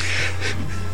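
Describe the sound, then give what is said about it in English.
Rapid, breathy panting from a hyper dog: harsh, noisy huffs in quick succession over a steady low hum, fairly loud, with no talk. “If you hear a lot of panting, we have a special guest. And that is my dog, Code Blue.”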